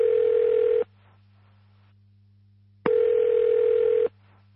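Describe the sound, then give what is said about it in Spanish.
A telephone rings inside a fortress, giving two long buzzing rings separated by a pause of about two seconds, over a faint steady low hum. “en la fortaleza de Agromán suena una llamada.”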